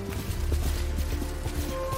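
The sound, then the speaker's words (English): Horse hoofbeats from a video game as the horse gallops through puddles with water splashing, heard as a steady, dense wash of noise with faint rhythmic thuds and a low constant hum. “And even like when the horse is galloping in puddles, there's water splashing.”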